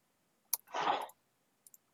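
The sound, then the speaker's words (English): Sharp clicks from a computer keyboard and mouse during an online tabletop role-playing game. A couple of crisp clicks give way to a brief soft rushing burst, then two quick light clicks, all fairly faint against near silence with no talking. “I have a hard time typing on my computer for some reason. Oh god, fuck my mouse.”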